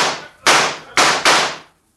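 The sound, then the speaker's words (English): A gang fires guns at a stable, making four sharp, loud cracks. Each crack has a quickly fading tail, and the last two come close together. “Draw your guns, boys. We'll show them mavericks what's what in mighty short order. All right. Drill that stable.”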